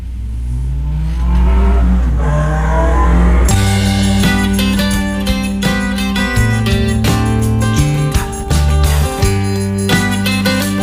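A motorcycle engine revs with a loud, rough roar for a few seconds as a music intro, then gives way to a song with a steady beat.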